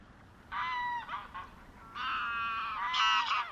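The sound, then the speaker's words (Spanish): Geese honking in a wetland national park in southern Spain: loud, nasal, harmonic honks come in a few bursts over a faint low background, with no voices. “estamos escuchando los sonidos del Parque Nacional de Doñana”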